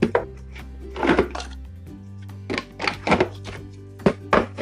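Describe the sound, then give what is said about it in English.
A lid is fitted onto a food processor holding cookie-dough ingredients, giving a few hollow plastic clunks and clicks over a steady low hum, without talk. “And I'm going to put the lid on my food processor the right way.”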